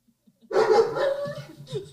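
A dog barks once in a drawn-out, fairly loud bark that trails off, then gives a shorter, fainter yelp at the end.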